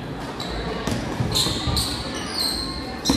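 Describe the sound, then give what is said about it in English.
A basketball is dribbled during a high school game. Faint bounces sit under steady crowd noise and voices. “Dribbling around.”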